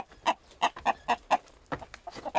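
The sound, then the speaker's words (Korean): Chickens cluck while being fed, giving a quick run of many short, sharp clucks in an uneven rhythm, fairly clear and without talk. “밥 먹으라 꼬꼬들아. 물도 좀 먹고.”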